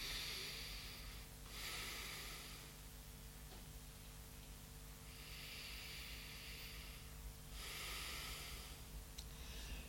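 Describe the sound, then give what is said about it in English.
Airy breathing in and out through the left nostril, with the right nostril held closed by the thumb. A few slow, soft breath swells rise and fall in a steady rhythm over a constant low hiss. “right nostril we close with the thumb, and these two fingers we balance here both nadis like this, and we inhale only through left in and out.”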